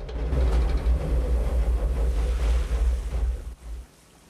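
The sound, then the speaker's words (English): Loud rushing water and deep rumbling as a seaplane skids across the ocean after a rough landing, throwing up spray and losing a float. A dense, steady roar holds, then drops away abruptly near the end. “It skids across the ocean, throwing up water and losing one of its floats before eventually coming to a halt with a broken wing.”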